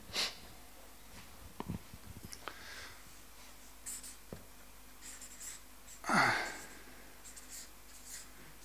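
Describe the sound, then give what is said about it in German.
Writing something down, with faint scratchy strokes in scattered irregular bursts over a quiet background and one louder breathy burst midway. “ich schreibe es jetzt einmal so, perfekt.”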